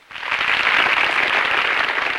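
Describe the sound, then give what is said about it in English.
Applause from an audience of women rising in a standing ovation: dense, steady clapping that swells in abruptly and holds at a loud, even level throughout. “the women rise in a standing ovation, directing their applause”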